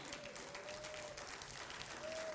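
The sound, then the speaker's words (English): Weak, faint clapping from a church audience, a low continuous patter of hands over a sustained tone. “You're clapping weak today.”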